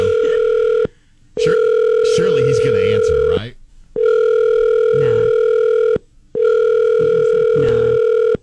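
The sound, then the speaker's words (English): A telephone ringing tone after a number has been dialed, heard as a steady buzzing tone in long bursts broken by short gaps. People talk over it throughout. “I've already done the dialing.”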